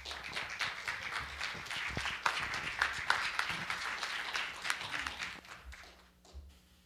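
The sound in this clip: Audience applause welcoming a speaker to a Christian gathering: a dense, steady wash of many hands clapping that fades out in the final second.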